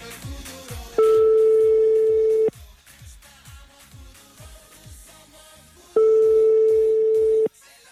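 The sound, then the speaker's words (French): Ringback tone of an outgoing telephone call, two long steady rings, each lasting about a second and a half with a gap between, sounding over background music with a pulsing beat. “on les appelle sur le téléphone, c'est parti. Et ça sonne déjà, ça sonne déjà.”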